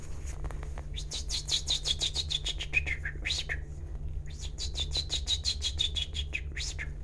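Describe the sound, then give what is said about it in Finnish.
A person imitates a chaffinch's song, whistling two trilled phrases that each descend in pitch and end with a quick flourish, separated by a short pause. “Peippo.”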